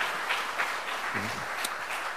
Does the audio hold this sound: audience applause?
yes